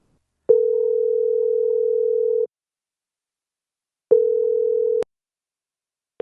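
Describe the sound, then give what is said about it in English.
Telephone ringing tone heard over a call line: a steady electronic tone about two seconds long, a pause, then a shorter tone cut off by a sharp click, with another tone just starting at the end. “Get this phone ringing. How's that sound?”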